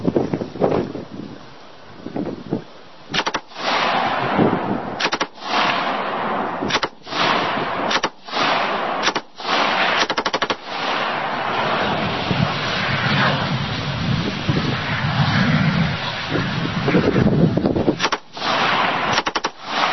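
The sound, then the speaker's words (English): Rifle tracer rounds are fired at a propane tank set up about 150 meters away. Many sharp, loud cracks come in irregular bursts over steady gusting wind noise, with no talk. “I've got my propane tank set up at about 150 meters. I'm going to shoot the tracers into it. It's going to be a lot.”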